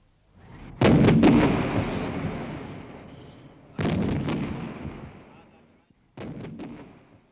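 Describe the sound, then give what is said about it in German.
Three artillery guns fire one after another on command in a battle against the Dakota. Each blast is a loud, sharp crack followed by a long, decaying rumble, and the last is somewhat fainter. “Erstes, zweites und drittes Geschütz! Feuer!”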